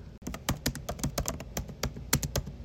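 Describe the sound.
Fingers type on a computer keyboard in a quick run of many sharp, crisp clicks, the keystrokes coming in an irregular rhythm with a few louder taps standing out, heard alone with no talk.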